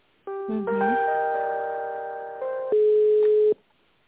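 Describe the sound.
Telephone line tones while a call is being transferred: steady electronic tones held for about three seconds, then switching to a single louder, flatter tone before cutting off.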